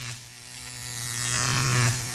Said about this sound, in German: Was ist das? Ein Rasierer.